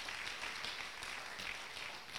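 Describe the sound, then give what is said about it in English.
An audience claps hands together during a church service, a faint, dense wash of steady applause with no clear individual beats, continuing evenly for about two seconds. “Clap your hands to the word of the Lord.”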